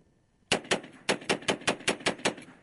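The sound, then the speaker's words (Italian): Rapid gunfire from a 2011 advertising spot: after a brief quiet start, a fast, even burst of many sharp, loud shots follows in close succession. “e c'è lui che spara.”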